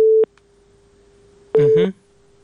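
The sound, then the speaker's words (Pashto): A telephone busy tone after a call cuts off: one short, steady beep, then a quiet stretch and a brief voice-like burst over a faint lingering tone. “اړیکې وشلې ده”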